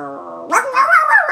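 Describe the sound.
A golden retriever growls and howls: a low, steady, buzzing growl gives way to a louder, higher, wavering howl-like whine that bends up and down in pitch.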